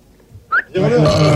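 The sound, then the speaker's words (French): A loud, rough burp attributed to a pig, a voiced belch lasting over half a second that rises abruptly out of near silence. “C'est le porc qui a roté.”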